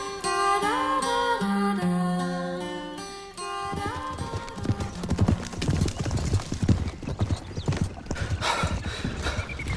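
Ridden horses gallop hard, their hooves clip-clopping in a fast, loud, continuous patter of many beats. The hoofbeats take over after several seconds of music at the start.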